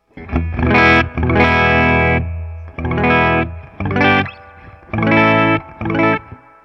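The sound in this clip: Dry electric guitar tone from a reliced guitar with the fuzz pedal switched off: six loud bursts of ringing chords or notes separated by short gaps, bright and clean.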